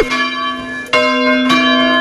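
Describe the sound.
Bells of a small village church in the Landes in France ring in resonant, sustained tones. Three clear strikes sound alone, and each one swells over the hum still ringing from the one before.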